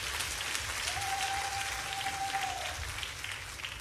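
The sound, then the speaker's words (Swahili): Faint, steady applause from an audience, a soft continuous patter of many hands clapping without any clear breaks. “Makofi kidogo basi.”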